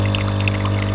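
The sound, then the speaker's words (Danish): A coffee machine brewing and pouring coffee gives a steady, unbroken trickling hiss over a constant low hum, holding an even level throughout. “Det er den her lyd. Kaffemaskinen.”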